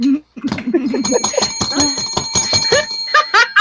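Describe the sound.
A small bell hit repeatedly, its bright, sustained high ringing tones layering and lingering under steady talking from people throughout.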